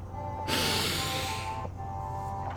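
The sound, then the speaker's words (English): A deep breath drawn in through the nose during a guided breathing exercise: one soft, airy rush lasting about a second over a faint steady hum, with no talking. “Inhale deeply into the bottom of the lungs. We breathe in.”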